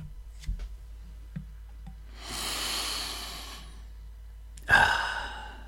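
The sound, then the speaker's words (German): A deep inhale through the nose over a cup of tea, drawing in its aroma. Faint clicks come first, then a long, soft, airy breath in, and later a shorter, sharper breath that trails off. “ich atme über der Teetasse tief ein, dann dufte ich schon mal den Teegeschmack”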